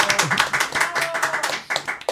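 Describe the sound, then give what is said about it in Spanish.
A small group claps briskly to welcome guest band members, with quick, uneven hand claps that come in short bursts and stay fairly loud for a moment. “Aplausos para ellos, por favor. ¡Bravo!”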